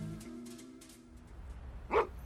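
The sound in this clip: A small dog gives one sharp bark near the end, standing out clearly after a quieter stretch.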